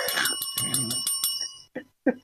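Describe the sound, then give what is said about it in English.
A bright warning bell rings in a quick, even run of many strikes, then stops and gives way to two short bursts of voice. “Ding, ding, ding. Warning, then, hang on, here's the warning bell.”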